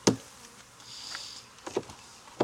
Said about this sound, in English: This may be a poorly put together two queen hive. I don't know if they're fighting or anything. We'll find out. Just bees.